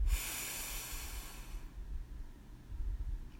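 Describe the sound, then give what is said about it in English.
A deep breath during a guided breathing exercise comes as a soft, airy hiss that is faint overall. It is strongest at the start, then fades into a quiet low rush of air. “So let's breathe in and out. Breathe in”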